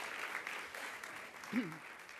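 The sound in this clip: Soft, steady applause from a church audience welcoming a guest speaker, a continuous quiet patter of clapping with a brief voice heard near the end.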